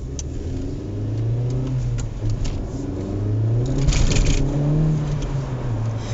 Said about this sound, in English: it's front wheel drive, so the front wheel was just spinning then.